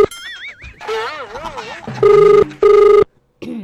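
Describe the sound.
A telephone ringback tone sounds as a call is placed: two steady, loud buzzing bursts of equal length separated by a short gap. They follow a stretch of warbling electronic tones.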